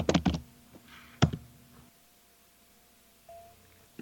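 A few sharp keyboard taps sound as a game code is typed in: a quick cluster of clicks, then a single louder tap, each faint against near silence.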